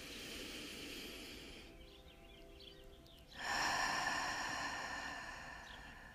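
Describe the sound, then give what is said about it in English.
Breathwork breathing: a long, soft inhale through the nose, then a louder, rushing exhale out through the mouth that begins partway through and slowly fades. “And another one in through the nose and out through the mouth.”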